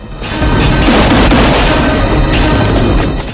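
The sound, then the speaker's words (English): Gunfire from gunmen leaning out of a fast-approaching car toward a motorbike during a chase: a loud, sustained booming roar with a few sharper cracks inside it and no voices. “Gunmen lean from the car and open fire.”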